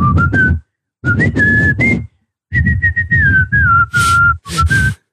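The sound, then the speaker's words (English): A person whistles a short, lilting tune in three phrases separated by brief pauses, the clear, fairly loud melody wavering up and down over a breathy rush of air. “I would try and like whistle. I'd be like,”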